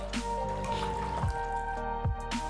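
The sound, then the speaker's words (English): Blood drips from a person's arms: a few separate drops, each a small plop with a quickly falling pitch, over a steady musical drone. “Can't bear to watch any more blood draining from her arms.”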